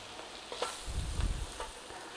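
Flour and curry powder frying in a pan while being stirred: a faint, soft sizzle with a few low scraping strokes clustered in the middle.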